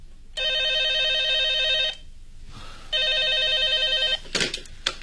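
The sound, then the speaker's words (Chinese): A telephone bell ringing in an office, two long, steady electric rings separated by a short pause, followed by a few brief knocks. “电话铃又响”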